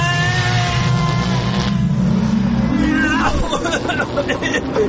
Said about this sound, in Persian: خب این هفته این ماشین زمان رو روشن کنیم ببینیم کجا میبره ما رو، گذشته یا آینده